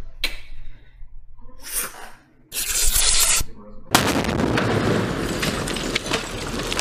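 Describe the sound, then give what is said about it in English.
Grenade throw and explosion sound effect from the Call of Duty video game: a few short, noisy bursts, then a loud sustained roaring blast that carries on to the end. “Throw that nade”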